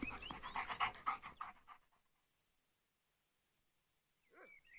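A dog pants while wanting to go outside, its quick rhythmic breaths loud for roughly the first two seconds. Silence follows, then a short high-pitched whine at the end.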